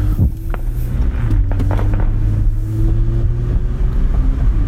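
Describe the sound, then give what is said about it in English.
Steady low engine and road drone from a 2021 Toyota Camry TRD with a 3.5-liter V6, driving over bad, bumpy suburban Michigan roads, with a few faint knocks over the constant rumble. “Just in the suburban streets that we're traveling right now, it's navigating bumps well. There's the bad suburban Michigan roads.”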